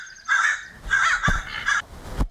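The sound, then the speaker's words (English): A crow calls with several harsh, rasping caws in quick succession, loud and clear with short gaps between them. “that was a crow call for sure.”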